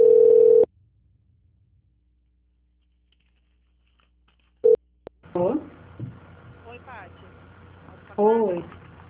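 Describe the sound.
A telephone call transfer tone sounds as a steady mid-pitched beep lasting under a second. A long silence follows, then a second brief beep, and people begin talking over the line.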